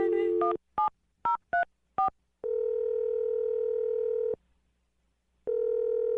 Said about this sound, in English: We're going to dial the phone number right now for you.